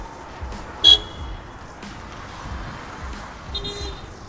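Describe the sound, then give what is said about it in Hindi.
Car horns toot over continuous city road traffic in Gurgaon after heavy rain: two short horn blasts, the first sharper and louder, stand out above a steady rumble and hiss of passing vehicles. “और बहुत सारा traffic भी है.”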